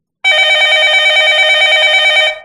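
A telephone rings with an incoming call: one continuous bright electronic ring lasting about two seconds, steady and loud with no voices over it.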